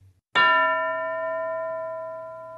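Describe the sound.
A school bell in a classroom lesson gives a single bright ding, then a clear, sustained ringing tone that slowly fades, heard alone without voices.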